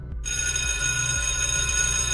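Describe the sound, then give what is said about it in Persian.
An electric school bell rings in one continuous, loud metallic jangle after a brief silence at the start, holding steady to the end over a low background rumble. “اگر موفق شدید قبل از شنیده شدن صدای زنگ مدرسه به این شکل”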